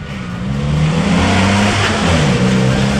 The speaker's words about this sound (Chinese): 吉普车野蛮地倒着车，撞坏了路边的花坛，接着直接掉头冲向门口。